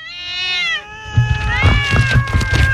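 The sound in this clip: Little cats meowing: a long meow that falls in pitch, followed by more meows overlapped by talking.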